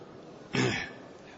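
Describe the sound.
A single short sneeze bursts out against a quiet background and fades quickly.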